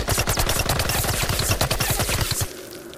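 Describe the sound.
Gunfire sound effect from an audio drama shootout among trees: loud, rapid automatic shots fired in a dense continuous stream of many cracks, cutting off abruptly shortly before the end.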